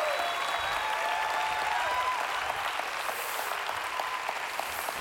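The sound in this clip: A church audience gives a guest speaker a welcoming round of applause, dense, steady clapping that holds at an even level for about five seconds.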